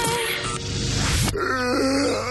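A person yawns: a long, groaning breathy yawn rises into a voiced sigh, followed by a quieter tonal tail.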